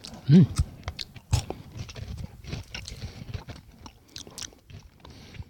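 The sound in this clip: Chewing and crunching of fresh-tasting sweets, flavoured like refreshment sticks. Many small, uneven crunches and bites follow one another, with two louder bites early on.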